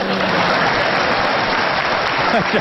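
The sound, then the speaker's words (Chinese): Audience applause for stage performers: dense, steady clapping that holds at an even, loud level for the whole stretch without a break. “好，谢谢大家热烈的掌声鼓励。您的掌声啊，对我们演员来说就是一针兴奋剂。”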